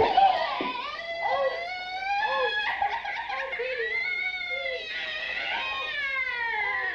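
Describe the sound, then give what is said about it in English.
A voice imitates a baby's noises and crying with continuous high, whiny wails. The pitch warbles and wavers, with giggly, laugh-like breaks, and stays fairly loud throughout. “Like baby noises and his crying and stuff like that.”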